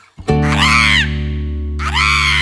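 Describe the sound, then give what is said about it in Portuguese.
A voice imitates a macaw with two harsh, raspy squawks, the first longer, sung loudly over a low, steady droning musical chord in a song. “Da bicharada, lá vem a dona Arara.”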